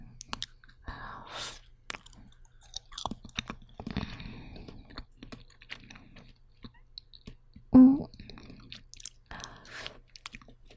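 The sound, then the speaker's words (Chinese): Someone eats slightly fatty grilled lamb skewers, with many soft chewing and crunching mouth sounds, small clicks and one louder bump near the end, alongside faint murmured voices. “别光喝酒，这羊肉串冷了就不好吃了。我先来一个。”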